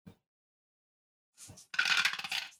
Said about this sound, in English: Throw them dice. But if nobody else is rolling.